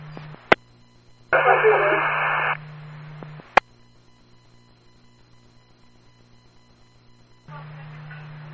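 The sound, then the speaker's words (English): Radio static breaks up a transmission: a harsh burst of hiss lasting about a second, sharp clicks and a steady low hum, with another stretch of noise starting near the end. “Unreadable due to static. Go again.”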